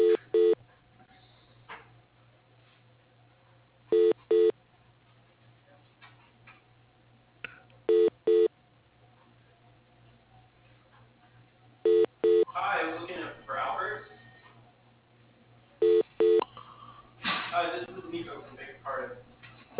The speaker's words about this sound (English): To call this person, press 1. To change to the next person, press 2.